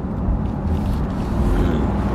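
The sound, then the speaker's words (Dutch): Deep engine rumble from a hot-V turbo petrol car under acceleration, its turbochargers mounted inside the V, a loud steady low-pitched roar with no voices. “Hot V, dus die turbo zitten in de V. Gewoon echt een snoepje. Klinkt ook lekker.”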